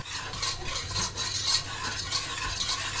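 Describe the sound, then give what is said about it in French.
A spoon stirs chickpea flour into boiling plant milk and water for vegan gougère dough, making continuous swishing and scraping against the pot in a steady, fairly loud rhythm, with no talking. “Le lait végétal et l'eau commencent à bouillir. Ouais, et ben on, va verser euh, la farine de pois chiche. On touille”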